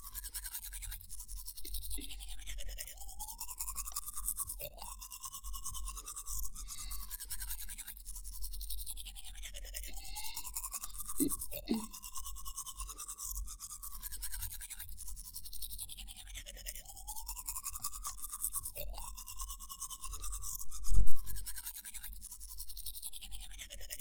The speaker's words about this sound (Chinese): 放轻松，妈妈帮你刷牙哦，别紧张，只要刷干净。